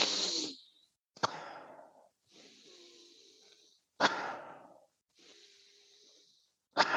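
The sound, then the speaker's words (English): Fast, deep breaths taken as a breathwork example: a series of sharp, loud intakes, each followed by a longer, softer hissing exhale. The breaths are quiet overall and heard alone. “As an example, I will do a couple of breaths right now. Maybe you can hear it. I will do like three faster and deeper breaths, and it's something like this.”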